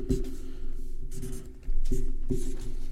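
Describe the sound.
Pen writing on paper as an answer is jotted down during a points-based question game: a few scratchy, papery strokes in short bursts over a steady low hum, with no talk.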